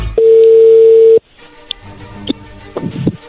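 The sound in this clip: A telephone tone sounds while a call is placed: a steady, loud tone holds for about a second, then cuts off, leaving faint line noise and a few soft clicks.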